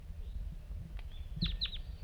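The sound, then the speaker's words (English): A wild bird gives two quick, high chirps that each drop sharply in pitch, heard faintly over a low background rumble. “start recording the wild bird”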